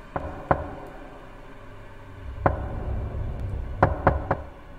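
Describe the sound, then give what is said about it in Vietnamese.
Knocking on a wooden door: six sharp knocks in all, two close together, a long pause, a single knock, then a quick run of three. Each is crisp and distinct over a low, steady background. “tiếng gõ cửa đều đều ở bên ngoài vẫn cứ”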